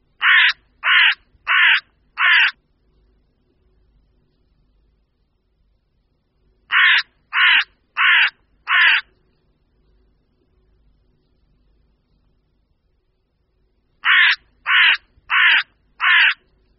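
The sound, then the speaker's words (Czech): Carrion crow cawing: three evenly spaced bouts of four harsh, rasping caws each, loud and clear against near silence between the bouts. “Také její hlas je mezi lidmi všeobecně velice dobře známý jako krákání a bývá často napodobován jako krá, krá, krá.”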